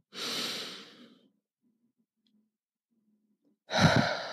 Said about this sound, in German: nimm jetzt ganz bewusst einen tiefen Atemzug und atme in die Hand, die auf deinem Bauch liegt, ein. Ganz tief einatmen.